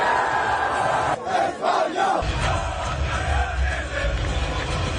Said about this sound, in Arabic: فرحة الجمهور مع اللاعبين وملك إسبانيا الذي تواجد بالمباراة.